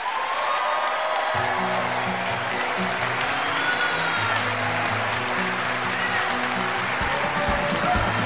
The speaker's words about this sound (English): And I am joined, as you can hear, by a wonderful live audience right here in Indianapolis